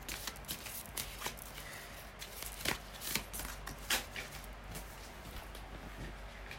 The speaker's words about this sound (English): some cards fell to the ground, but I'm not taking them because they fell in a pile.